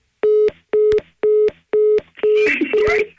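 Telephone call tones play as a call connects: four short, steady mid-pitched beeps at an even rhythm, with a fifth tone blurred by a burst of noise at the end.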